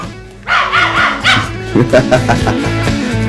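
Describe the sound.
A small, skittish dog barks and yips in several short bursts, some with higher whimpering yelps, over a low steady hum.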